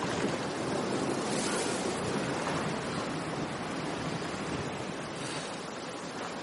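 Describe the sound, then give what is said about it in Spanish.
Ocean waves break in open water: a dense, continuous rushing wash of surf mixed with wind noise, steady in loudness throughout, with no voices. “Las olas rompen a su alrededor. Mira hacia atrás. No ve más que agua.”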